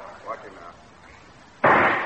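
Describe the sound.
A single gunshot rings out at a shooting contest: one sudden, loud, sharp crack that decays quickly, following a brief stretch of faint voice.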